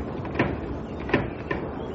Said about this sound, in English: This window's locked. Let me try the door.